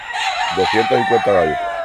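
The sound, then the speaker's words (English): Crowing and clucking from caged fowl, part of some 250 birds kept in backyard cages and fed before sunrise: a rooster's call broken into several pulsing harmonic syllables, loud over a steady high-pitched hum. “Each morning, the whole family gets up before sunrise to feed the 250 birds they have in cages in their backyard.”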